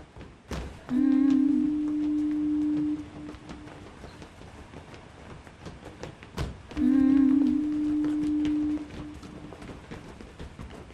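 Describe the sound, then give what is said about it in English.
Foghorn sounding two long, deep, steady blasts of about two seconds each, separated by a quiet gap of several seconds with faint thumps in the background. “Except they invented a voice for the fog. The foghorn.”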